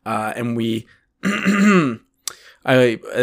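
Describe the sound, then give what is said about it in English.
A person clears their throat in several rough, voiced bursts separated by short pauses. “That throat clearing was relevant.”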